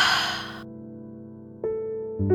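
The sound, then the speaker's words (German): A single slow breath during a guided breathing exercise: a soft, airy exhale at the start, then quiet steady musical tones sustained beneath, with no talking. “Ausatmen. Noch einmal tief einatmen und wieder ausatmen.”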